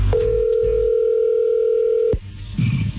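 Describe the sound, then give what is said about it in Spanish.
A telephone dial tone sounds as a call is being dialed: a steady, unbroken tone for about two seconds, then it cuts off abruptly and faint low noise follows. “se está marcando, no haga ruido. Vamos a ver qué sucede.”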